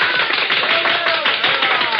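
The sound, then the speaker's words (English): Audience applause greeting a performer being introduced on stage, a loud, dense and steady patter of many hands clapping throughout. “Then applause drew me from my unhappy reverie.”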